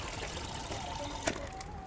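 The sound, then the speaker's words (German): Water trickles steadily from the tap of a tall plastic rainwater tank, about two meters high, into a cup, a continuous hissing flow with one brief knock partway through. “Jetzt zapft sie sich Wasser in einen Becher.”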